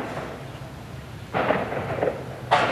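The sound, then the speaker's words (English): Artillery practice on the Kinmen military base: two heavy cracking booms with sudden onsets and lingering rumble over a continuous low background roar. “You can hear behind me the crack of artillery practice, which is just a reminder that even though a lot of troops already left Kinmen, some of it's still an active military base because of its proximity to China.”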